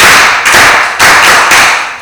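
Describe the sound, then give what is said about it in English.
A group clapping hands together after prayer and dancing. The dense, loud, continuous applause swells in a few surges and runs without a break, with no voices standing out. “Now, let's clap for ourselves because we prayed and dancing. 1, 2, 3, go. Clap for yourself. 1, 2, 3, go.”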